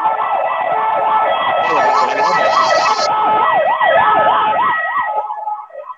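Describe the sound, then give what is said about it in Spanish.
An ambulance siren passing a street crossing at night: a loud, wavering wail that cycles up and down many times over a traffic rumble, then fades near the end. “Viene una ambulancia.”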